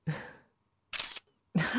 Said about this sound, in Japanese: 写真撮っていい？